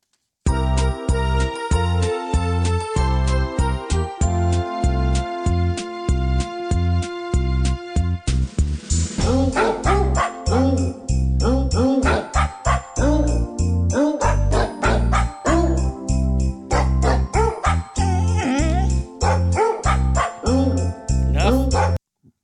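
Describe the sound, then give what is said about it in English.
Many dog barks, pitched and sequenced into a bouncy musical tune for a novelty barking-dogs song, repeating in quick rhythmic bursts over a steady beat with light jingling for most of the track. “Will it be the aforementioned very, very terrible barking dogs?”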